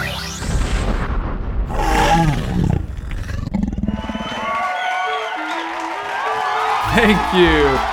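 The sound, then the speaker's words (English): Canned studio audience cheering and applause opening a talk show, a loud roaring crowd swell that later gives way to a speaking voice. “Thank you. Wow, you are too kind, fake studio audience. Thank you. All right, have a seat. Take it easy.”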